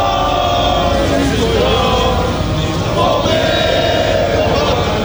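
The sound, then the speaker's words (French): A rally crowd spontaneously sings La Marseillaise, many voices joined in a loud, sustained melody over a thick murmur of the crowd. “Puis spontanément, le public a entonné une Marseillaise.”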